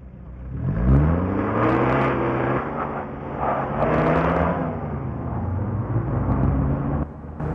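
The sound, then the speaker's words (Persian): A car drives up and comes to a stop, its engine droning loudly with harmonics that rise and waver in pitch, then the level drops near the end. “ماشین غفار وای میسته.”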